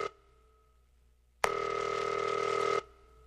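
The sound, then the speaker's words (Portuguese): A single ringback tone on an outgoing phone call that goes unanswered: a steady electronic buzz lasting just over a second. It starts and stops abruptly against faint line hiss. “Tamo ligando pra ela.”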